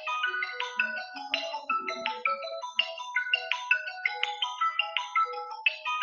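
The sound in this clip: A phone ringtone sounds from an incoming call attempt: a loud, bright melodic pattern of many short electronic notes that repeats in quick succession, heard alone without talk.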